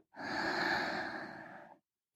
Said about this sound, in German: lass uns kurz gemeinsam einatmen